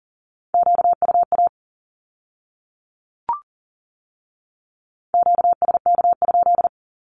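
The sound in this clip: Morse code Q-code sent at 40 words per minute: two clusters of rapid, steady-pitched beeps separated by a long silence, broken once by a single short blip.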